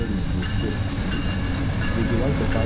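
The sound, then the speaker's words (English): A train arriving at a London station, heard as a steady, dense low rumble of rolling wheels and carriages that stays even in level throughout. “Now arriving London for our first stop.”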